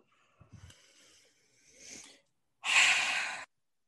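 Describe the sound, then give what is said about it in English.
Deep exhale after a deep breath during a tapping relaxation exercise: softer breathy sounds lead into one loud, forceful blowing-out of air lasting under a second, which then cuts off into silence. “just take a deep breath. And blow it all the way out.”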